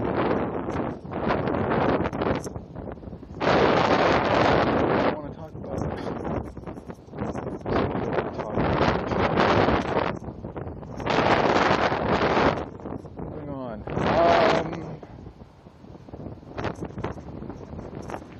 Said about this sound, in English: Wind is going to be wonderful, I'm sure. It's blowing right in my face.